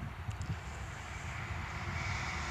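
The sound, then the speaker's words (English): Train going past in the background: a steady, low droning rumble that swells slightly toward the end, with no clear voice over it. “excuse the train going past in the background.”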